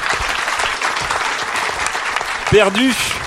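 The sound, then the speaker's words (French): An audience applauds a participant in a discussion with dense, steady clapping throughout. A voice briefly speaks over it near the end. “On applaudit Daz qui est en détresse.”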